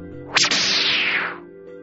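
Football kicked hard during a game among children: one sharp thwack, then a long swishing whoosh that trails off.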